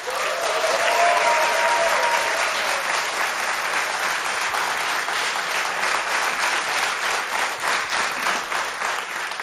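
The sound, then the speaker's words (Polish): Warm, sustained applause from a concert audience welcoming performing artists onto the stage of a Polish radio studio: dense, even clapping at a steady loud level throughout, with a few faint cheers near the start. “Bardzo dziękujemy za tak gorące powitanie artystów na scenie studia imienia Agnieszki Osieckiej.”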